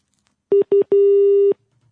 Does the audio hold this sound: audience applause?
no